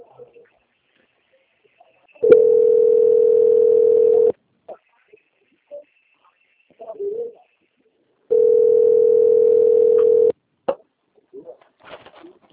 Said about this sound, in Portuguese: Peço, por gentileza, que você aguarde em linha, que eu vou transferir o contato para o controle de qualidade, que vai dar continuidade à sua contratação, tá bom? A ligação vai ficar mudando um minutinho, mas não desliga